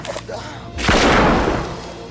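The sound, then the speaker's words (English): A single handgun gunshot, heard as one loud, heavy report about a second in, which rings and decays slowly after a few quieter sounds. “Mike pulls a handgun and shoots himself in the mouth.”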